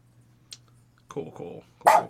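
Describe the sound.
A dog barks once, loud and sharp, near the end, after a few quieter, lower sounds.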